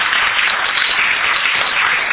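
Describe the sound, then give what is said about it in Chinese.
Audience applause breaks out for a praised performer, a dense, steady wash of many hands clapping that holds at an even, fairly loud level for the whole stretch with no clear pauses. “让给他热烈的掌声啊！”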